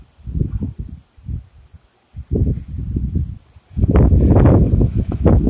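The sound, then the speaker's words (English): Gusty outdoor wind kicks up and blows loose things around, heard as uneven low buffeting bursts with brief lulls, building into a louder, sustained rumbling roar over the last seconds. “Wind's just kicking up right now. Everything's kind of blowing around.”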